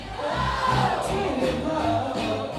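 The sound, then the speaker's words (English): Crowd in a sold-out East London club in 2023, a dense, loud roar of voices over soul music that holds steady throughout. “This is the sound of a sold-out club in East London in 2023.”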